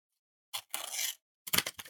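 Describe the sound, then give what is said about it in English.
An envelope is torn open with a short rasping paper rip, then a few quick crinkling rustles, fairly faint against silence. “Duncan, I'm just going to open the envelope here, as is our tradition here on the Transfer Window podcast.”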